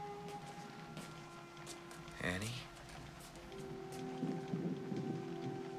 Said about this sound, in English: As rain pours down outside, Paul's